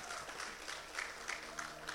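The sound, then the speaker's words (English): Applause from a church audience during a Father's Day service: dense, steady clapping that fills the whole clip, with a few brief louder swells along the way. “Come on, give it up for Jesus. Put your hands together for him.”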